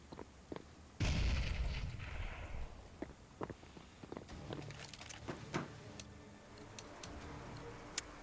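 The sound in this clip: A grenade goes off in a video game: one sudden loud blast about a second in, with a rumbling decay, while sharp clicks and taps are scattered before and after.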